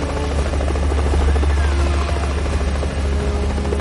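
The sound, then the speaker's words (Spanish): Helicopter flying in toward a huge structure in the middle of the ocean and landing, heard as a loud, steady drone of rotor and engine with a continuous low thrum and no voices. “El helicóptero vuela hasta ella y aterriza.”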